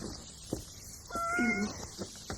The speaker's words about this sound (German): hast du mich erschreckt, du Katzentier. Nun zisch mal ab, sonst stolpern die auch noch über dich.